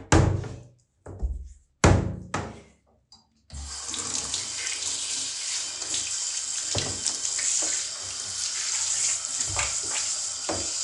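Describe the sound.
Running tap water rinses away clumps of hair: a few knocks and splashes come first, then a steady, loud rush of water flows without a break.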